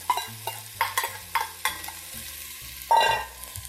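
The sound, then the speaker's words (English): Minced ginger and scallions sizzling in intensely hot oil for a Cantonese bao stir-fry, a steady hiss broken by a few sharp clinks and scrapes of stirring, with a brighter burst of sizzle near the end. “Here goes my minced ginger. Stir that up. Get it good and cozy with the oil. Here my scallions.”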